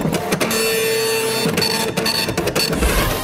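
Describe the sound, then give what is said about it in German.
A dot matrix printer in a relay signal box chatters steadily as it logs a passing train, a dense, continuous rattle with a few brief dips and a faint whine running through it. “Die Relais-Technik wurde in den 1930er Jahren entwickelt und trat ihren Siegeszug in den 1960er Jahren an. Und jede Durchfahrt dokumentiert der Nadeldrucker.”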